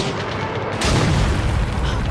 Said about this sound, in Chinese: 可是我们只有3发炮弹， 关键是看射击的质量。预备，放！